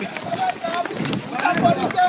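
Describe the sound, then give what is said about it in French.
People run during a street protest in Congo, with quick, uneven footfalls under excited, breathless talk. “Voilà, là on est en train de courir.”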